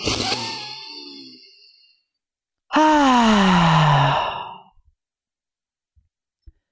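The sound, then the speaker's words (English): A deep breath taken before answering a question: a breathy intake, then a long, voiced sighing exhale that falls in pitch and fades, heard alone against silence. “I take a deep breath before answering. I take that deep breath.”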